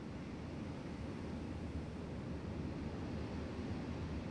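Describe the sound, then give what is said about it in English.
A strong night wind blows steadily as a broad, unbroken rushing hiss, fairly quiet and even throughout with no other clear sounds. “A very strong wind started blowing around the full moon and keeps sweeping”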